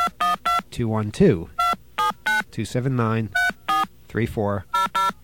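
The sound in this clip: Push-button telephone touch-tones dialing a collect call to a New York number: a string of many short, evenly paced beeps interleaved with a person talking.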